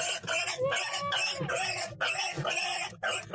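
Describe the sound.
Piglet squealing in a muddy pigsty: many short, harsh, high squeals come in rapid succession with brief gaps between them, fairly loud and uneven.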